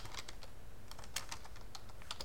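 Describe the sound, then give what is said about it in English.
Typing on a computer keyboard: many quiet, quick key clicks in an irregular rhythm over a soft background hiss, with no talking. “Shush, I'm trying to type.”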